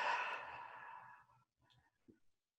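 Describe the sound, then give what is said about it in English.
A deep breath during a calm guided session: a long, airy exhale that slowly fades over about a second and a half, followed by a couple of faint, soft breath sounds. “Deep breath.”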